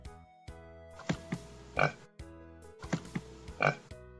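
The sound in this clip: Several grunting pig oinks arrive in uneven bursts over a steady tonal background. Some are short snorts and others longer, rougher calls.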